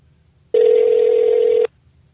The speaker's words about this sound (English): let's get him on the horn. Let's dial him up.